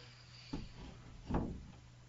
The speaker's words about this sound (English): I'm opening and closing this thing with the SD card that I got to transfer stuff into after the show.